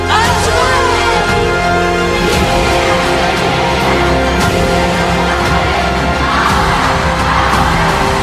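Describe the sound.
A protest crowd shouts and yells without a break, a dense, loud roar of many voices that stays strong throughout, with sharp whoops and cries rising above the mass.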